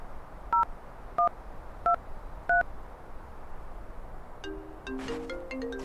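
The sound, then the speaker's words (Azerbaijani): Telephone dialing tones: four evenly spaced touch-tone beeps, each a short steady double tone, followed by a quicker cluster of mixed tones. “Telefoningizdan telefon qilsam bo'ladimi?”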